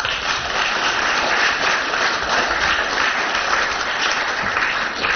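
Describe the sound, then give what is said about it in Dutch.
Audience applause after a lecture, a steady, dense clapping from many hands that holds at an even level throughout with no voices over it. “Nogmaals een applaus voor Dwayne.”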